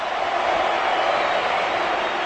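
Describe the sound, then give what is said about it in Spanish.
A football stadium crowd gives an ovation to a substituted player. The sound is a steady, broad wash of crowd noise and applause with no breaks. “Ahora hay ovación para James. ¡Isco! Ovación para Isco.”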